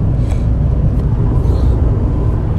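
A car driving on the road gives a constant, loud, low rumble of engine and road noise with no talk.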